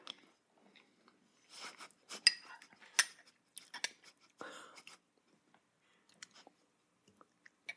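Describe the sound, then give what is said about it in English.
Someone eats cold mac and cheese: soft, quiet chewing and crunching in uneven bursts, with a few faint clinks of cutlery between them. “Okay, I'm just going to eat it.”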